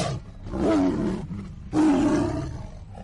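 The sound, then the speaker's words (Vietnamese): Two deep, growling tiger roars, each under a second long with a short pause between, loud and alone. “còn cả tiếng hổ gầm phát ra từ trong miệng”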